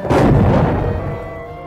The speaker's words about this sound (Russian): Выстрел по носу!